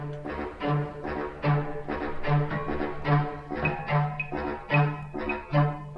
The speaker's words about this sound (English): This is John Adams. Last year's hit. This is John Adams from last year, which sounds like John Adams, a bit like his Short Ride in a Fast Machine, one of his most popular works.